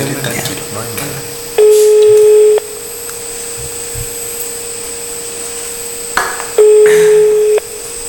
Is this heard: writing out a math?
no

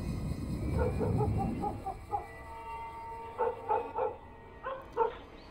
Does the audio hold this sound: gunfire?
no

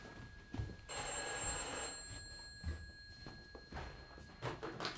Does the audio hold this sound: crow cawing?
no

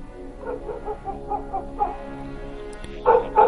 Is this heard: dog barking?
yes

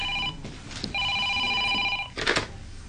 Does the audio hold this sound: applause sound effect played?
no

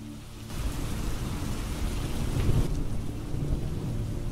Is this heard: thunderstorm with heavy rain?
yes

